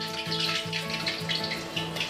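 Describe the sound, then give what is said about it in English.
Frying of a mashed mixture bound with cornstarch and egg, a steady hiss with dense crackling and spitting over a low droning hum, continuous throughout without a break. “So we mash into a pate or mixture, and then add some cornstarch to bind it together, some egg to make it stay, and then we fry.”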